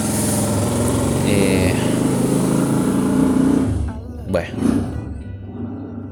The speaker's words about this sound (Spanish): Perdonen que ahí viene la moto.